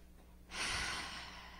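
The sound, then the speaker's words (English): A deep breath in and out during a guided breathing exercise: one long, loud breathy rush that starts abruptly and stays steady for over a second, then slowly fades, with no talk over it. “Take a deep breath in and out just to clear,”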